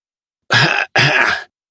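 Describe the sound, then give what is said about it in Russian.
A man coughs after tumbling across the ground, spitting out soil and greenery: two harsh, rough bursts of about half a second each, separated by a short gap. “Он резко принял сидячее положение и начал кашлять, попутно выплевывая куски почвы и зелени”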